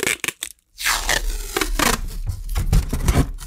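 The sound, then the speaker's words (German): Adhesive packing tape is pulled off its roll: a few brief raspy tears, a short silence, then a long, loud continuous ripping peel lasting about three seconds. “Ich kann das Klebeband sogar wieder zurück auf die Rolle kleben und dann wieder abziehen.”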